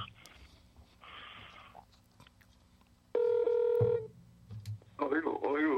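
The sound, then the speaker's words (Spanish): Telephone dialing tones as a number is keyed in for a call: a few short electronic tone bursts, then a louder steady tone, with a voice speaking at the end. “¿A quién estás llamando ahora?”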